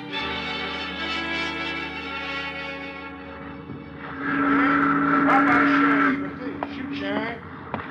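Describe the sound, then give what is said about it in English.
A ferry boat pulling into its slip sounds sustained, droning horn tones over a low rumble, swelling into a louder blast midway, then giving way to quieter mechanical noise, with a voice heard briefly. “Hey, look. Boat's pulling into the slip.”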